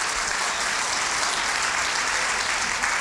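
An audience claps to celebrate a father's 84th birthday, a loud, even roar of many hands that holds steady throughout with no voices standing out.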